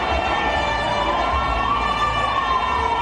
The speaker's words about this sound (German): Feuerwehr kommt, eine Gasse wird freigemacht, ein Rettungswagen, die müssen hier durch.